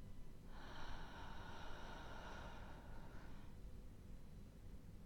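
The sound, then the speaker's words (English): One slow, deep breath, heard as a faint, airy rush lasting about three seconds over a low background hiss, then fading away. “we're going to start by taking a deep breath in and then out.”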